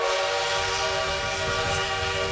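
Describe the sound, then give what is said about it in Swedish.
A strong mid-1800s steam locomotive runs on the rails, its whistle sounding a loud, steady chord of several tones over a low rumbling undertone for about two seconds. “Och tågen, som dras av moderna starka ånglok, kan tuffa fram i 80, 90, till och med 100 km i timmen om förhållanden är optimala.”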